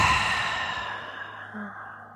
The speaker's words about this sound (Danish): Vi tager en god vejrtrækning her. Gerne puste ud igennem munden.